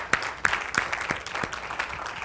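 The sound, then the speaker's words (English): Congregation applause in a church during a worship service: steady hand clapping from a crowd, with sharper claps landing in an even rhythm over the dense patter, moderately loud throughout. “Would you give the Lord a great big hand clap and praise?”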